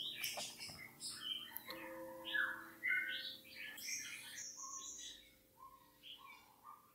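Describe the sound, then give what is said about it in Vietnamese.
Birdsong from pet birds kept outside at midday, many short chirps and whistled notes of varying pitch, fairly faint and heard alone without voices. “đang đọc trưa cho nên là chim bên ngoài nó hót ghê quá, hơi ồn.”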